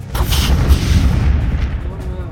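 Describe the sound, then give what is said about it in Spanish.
An explosive-laden plane exploding over occupied France: a loud, sustained rumbling roar with a heavy low end and crackling bursts, holding steady throughout. “van cargados de explosivos, cabrón, y antes de que pudiera eyectarse y salir volando, explota el avión.”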